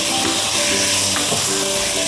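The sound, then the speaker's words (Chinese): Loud, continuous sizzling and hissing from a stir-fry as chicken bouillon and sugar are added and tossed quickly, the frying noise steady throughout. “我们加入少许的鸡精，少许的白糖，快速的翻炒一下。”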